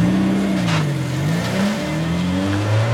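A car engine accelerates while driving to catch up at a traffic light. It is loud and continuous: the engine pitch dips briefly, then climbs steadily as it revs harder, with no talking.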